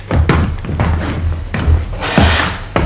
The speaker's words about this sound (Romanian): Ia lumânarea și hai să încuiem ușa.